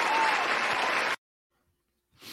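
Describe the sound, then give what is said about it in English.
Audience applause, a loud burst of many hands clapping that cuts off abruptly about halfway through, followed by silence and a short faint sound at the end. “That needs a round of applause.”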